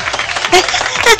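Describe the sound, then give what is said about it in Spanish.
Audience applause, a dense wash of clapping over the whole short stretch with voices rising above it at moments, fairly loud. “Y aplausos a Analía porque pidió los temas también, Vic. Pidió los temas en los grupos. Aplausos a Analía, aplausos.”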